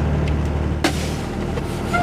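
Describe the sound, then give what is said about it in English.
Low, steady engine rumble from a tour bus that Arizona Raft Adventures uses to carry rafting clients on the long drive to the Grand Canyon launch point at Lee's Ferry, with one brief louder bump partway through. “often in a bus like this one that Arizona Raft Adventures, or ASRA, uses to transport their clients.”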